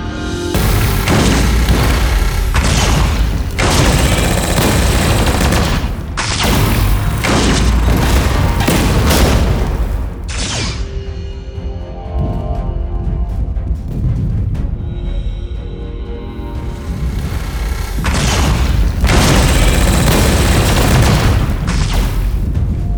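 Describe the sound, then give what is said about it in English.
Large weapons fire all at once in a barrage at maximum spread. Loud, heavy booms come in many overlapping bursts, with a brief lull midway before the firing builds again. “We have much bigger weapons. Fire them all. Maximum spread.”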